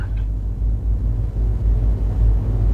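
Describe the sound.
Street traffic dominated by motorcycles flows past as a continuous low engine rumble with gentle swells, steady and fairly loud, with no voices.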